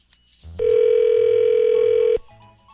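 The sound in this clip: A steady, loud telephone tone sounds while a call is transferred to another line. It holds one even pitch for about one and a half seconds, then cuts off abruptly.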